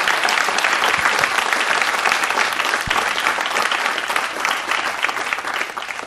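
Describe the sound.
An audience applauds steadily to welcome guest speaker Joe McGee to a morning service. The clapping is dense, loud and unbroken for about six seconds.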